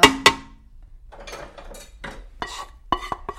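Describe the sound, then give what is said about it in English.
Metal utensil clanks and scraping in a pan as dal is added to the tempering: two sharp clinks, a soft rasping stir, then several more quick clanks, with no talk. “And then you add a bit of the dal to the pan to make sure you get all of the tempering out.”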